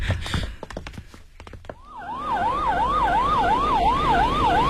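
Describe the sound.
A police car siren wails in a fast, regular up-and-down cycle over low road noise, after a few brief clicks and knocks at the start.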